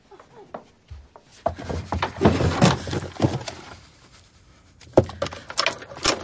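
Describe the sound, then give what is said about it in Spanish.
Rummaging through drawers in a bedroom: scattered clattering knocks, rattles and scraping rustles come in irregular bursts, some louder than others, with no talk. “Se levanta y revuelve los cajones.”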